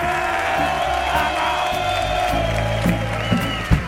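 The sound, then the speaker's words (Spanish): A live audience at Auditorio Cartuja cheers and claps loudly in a continuous, dense roar of crowd noise, with a few sharper bursts of shouting near the end. “Con un público que ha venido hoy, el Auditorio Cartuja, que está sonando de esta manera tan potente.”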